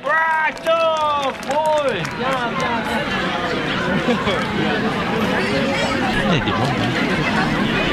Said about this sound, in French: Voilà ce qu'on entend là, c'est le bruit des cerisiers en fleurs.